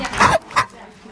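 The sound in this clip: A small dog barks twice in fairly loud, short bursts, the first bark longer and the second clipped and brief.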